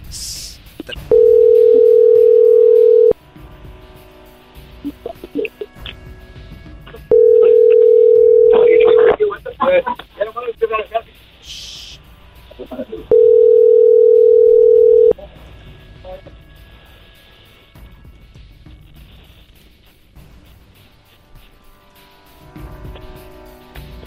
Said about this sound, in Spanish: Vamos a marcar otro lado, otro lado, otro lado. No contestaron ahí.